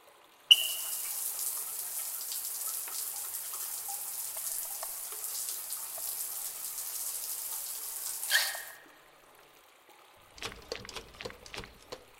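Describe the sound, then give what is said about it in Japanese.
Warm water running over hair as it is wetted for a hair wash: a steady, even rush of water for about eight seconds that stops abruptly, followed by a few light taps. “まずは髪を濡らします。お湯が目に入らないようにギュッとつむっていてくださいね。”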